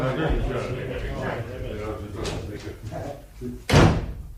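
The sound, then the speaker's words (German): A door slams shut as people storm out of a local courtroom: muffled voices and movement, then a single sharp, loud bang near the end. “sie polterten hinaus, schmissen die Türe zu und gingen ins nächste Wirtshaus”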